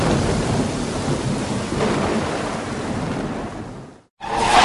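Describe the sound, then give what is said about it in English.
Thunder from storm clouds, a loud, steady rolling rumble with a rain-like hiss over it. It breaks off briefly near the end, then resumes at full strength. “Those clouds sound close.”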